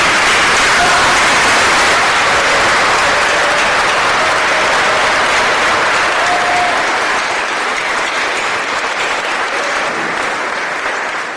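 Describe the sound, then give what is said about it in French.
A standing ovation at a gathering in Haiti, a crowd applauding loudly and continuously in a dense, even roar of clapping that eases only slightly toward the end. “je vais vous demander de vous mettre debout et de faire une ovation spéciale pour Mika, s'il vous plaît”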